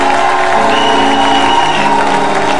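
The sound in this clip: Crowd cheering and shouting at a church celebration: a dense, continuous roar of many voices that stays loud throughout with no pauses.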